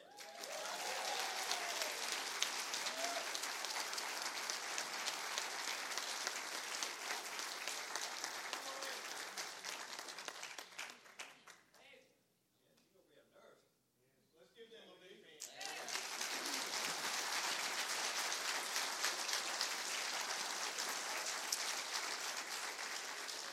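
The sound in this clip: Sustained applause from a church audience cheering graduates at Hiram First Baptist: dense, loud clapping that dips for a few seconds midway, then swells back to full strength.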